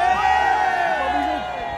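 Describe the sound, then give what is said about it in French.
Shouting from a protest crowd of hospital caregivers and workers defending the public hospital: many voices yell together in one loud, sustained roar that eases slightly near the end. “si ensemble, ouvriers, tout ce qu'on est, les salariés et nous, les soignants, eh bien, crions fort pour protéger l'hôpital public.”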